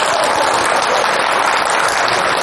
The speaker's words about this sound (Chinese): 我说大伙鼓掌都鼓掌。